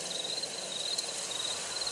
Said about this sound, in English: speaking of an owl